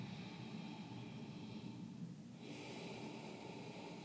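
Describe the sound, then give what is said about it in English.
Ujjayi breathing, drawn with gentle constriction at the back of the throat during breathwork, a soft continuous oceanic hiss whose tone shifts about midway as one phase of the breath gives way to the next. “Let us find an ujjayi breath. So inhaling. Exhaling. Gentle constriction through the back of your throat.”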